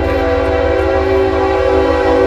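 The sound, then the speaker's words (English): A train passes with its horn blaring, one loud, steady, sustained horn tone held over the rumble of the train throughout, with no voices. “We got the train going through. Big up to the train. Making a lot of fucking noise.”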